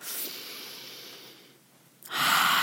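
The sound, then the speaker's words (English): Breathing during a guided meditation: a long, soft airy breath that slowly fades, a brief near-silent pause, then a stronger, louder breath near the end, with no talking. “Breathe as you do.”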